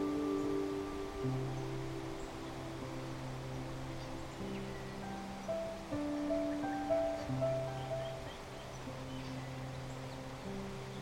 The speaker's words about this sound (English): to the sound of the birds in the canopy and the sound of that beautiful waterfall